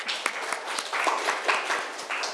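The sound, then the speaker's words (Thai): Students in a classroom applaud a classmate, a short burst of clapping with several sharp claps standing out over a steady, fairly even patter that lasts the whole clip. “ค่ะปรบมือให้เพื่อนหน่อยค่ะ”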